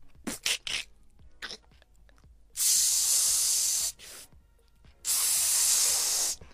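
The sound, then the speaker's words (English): An egg fries in a pan with two loud bursts of hissing sizzle, each lasting over a second with a quiet gap between, preceded by a few short taps and clicks. “You crack an egg into the pan. It cooks and you turn it over.”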